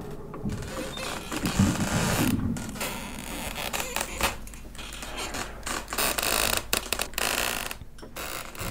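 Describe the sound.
Wooden doors creak and rattle in the wind. Irregular creaks and knocking rattles sound over a continuous rushing, hissing noise with no talk.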